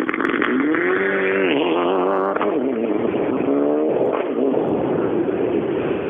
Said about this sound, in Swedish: Är det Mitsubishi nu?